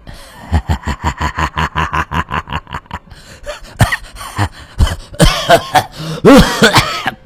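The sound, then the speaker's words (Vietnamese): An old man's prolonged coughing fit: a long run of rapid, rhythmic voiced bursts, then louder, harsher hacks with gasping breaths near the end. “Vì vậy cơn ho cũng phát tác.”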